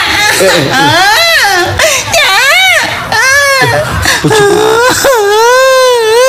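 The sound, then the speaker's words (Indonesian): A child cries loudly in long, wavering wails and whimpers, each sob rising and falling in pitch, several in a row with short catches of breath between them. “Dek. Ono apa, Dek? Dek. Eh, apa nangis, Dek?”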